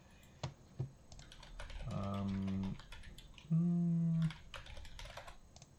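Typing on a computer keyboard while searching for legendary cards: a few scattered key clicks, with two sustained, tonal humming sounds in between.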